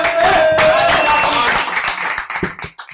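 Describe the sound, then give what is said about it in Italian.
Audience applause at a live show: dense clapping mixed with voices sounds loudly at first, then thins out into scattered claps. “Dopo Gianluca Vacchi, applauso.”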